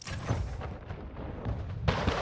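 Naval cannon fire against pirate ships in a video game, dense booming blasts over a rumbling bed, with a fresh heavy burst near the end.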